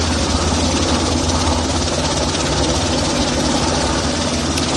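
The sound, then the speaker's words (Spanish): An 11-tonne helicopter's engine runs at start-up as its rotors begin to turn, giving a loud, steady drone with a deep low hum and broad hiss that stays level throughout. “así que nos ponemos en marcha y poco a poco empezamos a mover los rotores. Pues vamos para el 1 en 3, 2, 1, top, arrancate el 1.”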